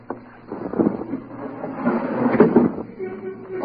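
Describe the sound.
A casement window being opened indoors: a few soft clunks and rustles over a steady low hum, with voice-like murmurs mixed underneath.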